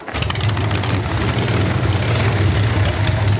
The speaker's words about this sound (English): You want to hear that thing run? Absolutely. That'll run? That bike starts right up. What year? This is 1957.